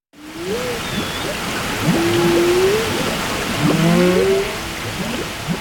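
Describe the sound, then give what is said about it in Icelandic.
Whales call underwater in Bakkaflói bay off northeast Iceland, recorded by a hydrophone: drawn-out tonal moans and sweeping whistles that rise and fall, layered over a steady, loud hiss of water noise. “Kór frá bænum Margate í Kent á Englandi notar hvalahljóð frá kvölum úr Bakkaflóa í nýju lagi sínu.”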